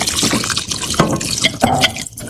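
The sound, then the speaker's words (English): Water is poured into a cooking pot, four cups added to a plant-based vegetarian curry. The pour makes a continuous splashing, gurgling rush with uneven surges throughout, fairly loud and free of voices. “And now I'm going to add my 4 cups of water to this.”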